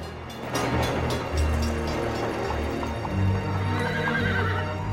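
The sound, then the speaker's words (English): Horses neigh and hooves clip-clop alongside horse-drawn carriages on an old-time Times Square street, with steady hoofbeats running throughout and whinnies rising above them. “Then, she's in Times Square with horse and carriages, a tram, men in top hats and ladies in dresses.”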